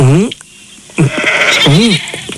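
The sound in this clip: Sheep bleating, with three loud, wavering bleats, each rising and falling in pitch, separated by short pauses and a brief rustle of background noise.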